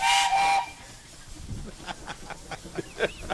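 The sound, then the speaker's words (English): A weak blast from a steam-type whistle: a loud, steady, high whistling tone lasting about half a second that stops abruptly, followed by quieter scattered noises. “compared to the first time that he blew that whistle about an hour ago, that was a little bit kind of weak.”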